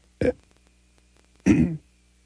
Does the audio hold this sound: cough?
yes